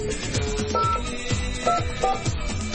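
Telephone keypad tones dialed on a landline, a few short beeps sounding over a busy, steady background with a continuous tone.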